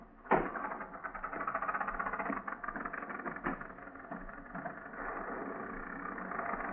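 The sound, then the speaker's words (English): A car engine idling in a muddy storm while it overheats with a slipping fan belt. A thud near the start gives way to a steady, muffled mechanical rumble that holds a fairly even level throughout. “Maybe you better stop and let me have a look under the hood. All right. Shall I turn off the motor? No, not yet.”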